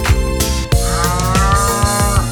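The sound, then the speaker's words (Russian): A cow's moo inside a cheerful children's song about country dacha life, a drawn-out low bellow over a steady musical beat and instruments. “мычит корова му”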